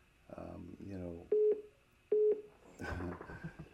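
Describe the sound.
A phone rings twice during a sermon before the call is sent to voicemail. Two short steady electronic tones sit between stretches of a voice talking.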